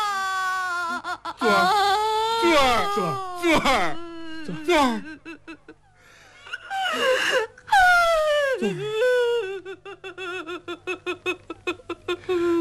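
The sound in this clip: Loud, drawn-out crying and wailing from a performer who is due on stage, with long sliding cries that rise and fall, giving way near the end to many short, rapid gasping sobs.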